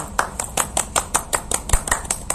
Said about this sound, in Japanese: 今拍手が聞こえましたけど